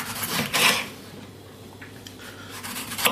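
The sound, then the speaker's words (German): A sharp knife slices a bell pepper into half-centimetre rings, making a few faint, crisp cutting strokes separated by quiet pauses, with no voices. “Schneide jetzt die Paprika. Halber Zentimeter dicke Scheiben stand da. Mache ich. Kriege ich hin. Das sind dann praktisch so eine Ringe.”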